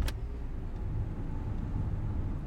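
A car driving on in Los Angeles: a steady, low engine and road rumble runs throughout, with one short, sharp click at the very start and no talk.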